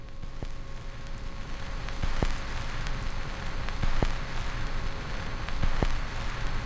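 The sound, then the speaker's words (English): Crackle of a vinyl record reaching its end: a steady bed of fine surface hiss and crackle, a low rumble, and sharp isolated pops that recur irregularly at a moderate level. “And it's the sound of a record coming to its end.”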